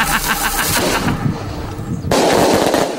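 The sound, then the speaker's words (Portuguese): Firework rocket noise, dense crackling and hissing bursts that run throughout, with a sharper, louder surge of noise about two-thirds of the way through. “Vamos soltar um foguete. Claro, foguete agora.”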